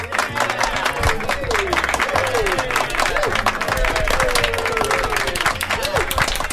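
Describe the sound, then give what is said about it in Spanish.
Applause from a school audience, dense and continuous clapping at steady loudness throughout, with shouting voices rising and falling over it. “¿Quieres un aplauso para animarte? Bueno, vale.”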